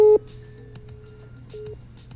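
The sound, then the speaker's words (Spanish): Telephone call tone while dialing abroad to Burundi: a short loud beep, then a faint steady tone and another brief beep over a low hum. “Estoy llamando a Burundi ahorita.”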